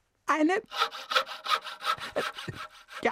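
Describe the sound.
A hand saw, a foxtail saw, cuts through wood in many steady, rhythmic back-and-forth strokes, each a rasping burst at an even pace with no talk over it.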